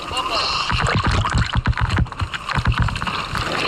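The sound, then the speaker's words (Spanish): Sloshing, splashing seawater as a rescued sea turtle is released and swims out into open sea, a continuous churning wash with gusty wind noise and irregular surges. “Ese es el sonido del momento, merece la pena si podéis ver las imágenes de cómo esta tortuga vuelve a nadar en aguas abiertas gracias a la ayuda de todas estas organizaciones.”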